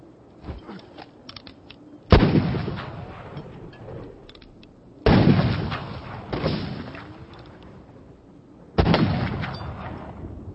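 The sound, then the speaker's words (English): Three rifle shots ring out a few seconds apart. Each is a sharp, loud crack with a long rolling decay, and fainter knocks are heard between them. “I heard the rifle, and I felt the ball. You missed your shot”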